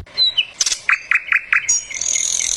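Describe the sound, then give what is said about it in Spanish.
Mockingbirds sing loudly with varied, bright chirps and whistles, including a run of four sharp repeated notes. The song ends in a high, sustained buzzy trill. “Canto de cenzontles. Canto de cenzontles. Canto de cenzontles.”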